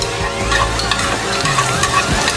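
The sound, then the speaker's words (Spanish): Tomato purée sautés in a pan with a steady, dense sizzle and frying crackle, stirred throughout with soft scraping and no pauses. “añadimos el puré de tomate y salpimentamos al gusto. Sofreímos un par de minutos”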